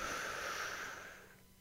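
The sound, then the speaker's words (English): One long, deep inhale: a soft, airy hiss that holds steady, then gradually tapers away, quiet and alone. “take the deepest breath you can. Hold it in the basement of your lung for just a second or two. All right, here we go. One, two, three. Inhale.”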